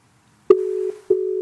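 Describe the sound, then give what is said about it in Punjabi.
A telephone line tone sounds while a call is being redialed. A steady low beep cuts in abruptly, drops out briefly and then resumes, loud and alone. “ਆਹਾਂ ਚੱਕਿਆ ਨਹੀਂ ਮੁੰਡੇ ਨੇ phone ਦੁਬਾਰਾ ਕਰੀਏ”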